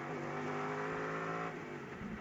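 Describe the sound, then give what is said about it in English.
Race cars braking and entering the pit lane, a loud engine roar with strong tonal harmonics that drops off slightly partway through, heard alone without talk. “And here they come, both together into the pit lane.”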